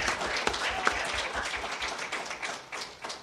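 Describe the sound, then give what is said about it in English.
Applause from an audience at an organization's meeting, honoring the editor of its newsletter: moderate clapping with a few sharp, distinct claps standing out, settling into a steady patter that thins toward the end. “Let's give her a hand. Yay, Connie.”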